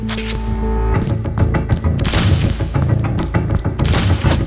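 Heavy gunfire and exploding high-grade ordnance during a firefight: loud, dense bursts of shots and booming blasts follow one another without a break.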